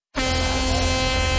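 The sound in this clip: A cruise ship horn gives one long, loud, steady blast, a deep buzzing tone rich in harmonics that starts abruptly after a brief silence and holds unchanged to the end.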